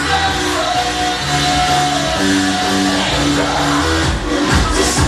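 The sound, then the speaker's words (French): A crowd of dozens of people seated on the terrace of a popular bar at 9 pm, a dense, loud murmur of voices with occasional shouts that holds steady throughout. “21h, des dizaines de personnes attablées à la terrasse du Old Folk, un bar populaire du quartier Syncore.”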